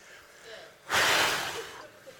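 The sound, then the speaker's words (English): A single deep breath drawn in a room, a loud airy rush of air lasting nearly a second that then tapers off, after a quiet lead-in. “Everybody take a deep breath.”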